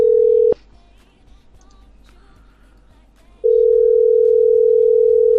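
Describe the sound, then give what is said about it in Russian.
Telephone ringback tone on an unanswered call to a microfinance company's overdue-debt department: a steady pure tone cuts off, a long near-silent pause follows, then the same tone returns and holds to the end. “Так, что-то гудки, трубки не берут.”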